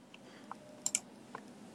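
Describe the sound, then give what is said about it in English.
Faint computer clicks: a few short, sharp taps at uneven intervals over a quiet background, with no talk. “Let's see if I can find it quick. I should just click his name.”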